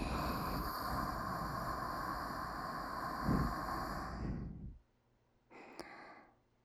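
Slow, deep breathing during a relaxation exercise: a long, steady, airy breath lasting nearly five seconds, then a brief silence and a shorter, softer breath.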